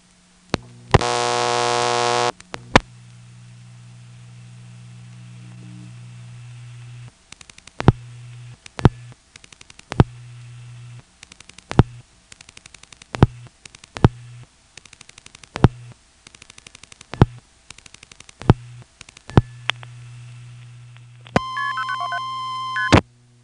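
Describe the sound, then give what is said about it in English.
A payphone tries to place a 1-plus long-distance call with MF tones. A loud tone burst opens, then a steady low hum is broken by many sharp clicks, and a rapid run of multifrequency tones ends it, with no voices. “Now, of course, from here, you can't dial 1 plus a long-distance call from a payphone. Here's what happens if you try.”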